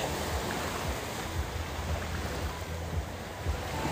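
Waves at a beach wash in a steady, broad rushing hiss, with soft low surges rising and falling throughout and no voices.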